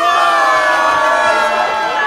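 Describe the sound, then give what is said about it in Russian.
Crowd shouting hurrah to the tsar, a loud, unbroken roar of many voices cheering together for the full two seconds. “На колени все тут пали и ура царю кричали.”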